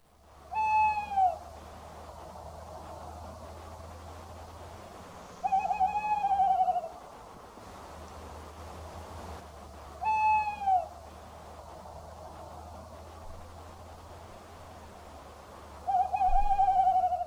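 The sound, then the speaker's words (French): A little owl hooting, four clear whistled calls with strong harmonics spaced several seconds apart, over a faint low steady hum. “Ah oui, Barbara la petite chouette.”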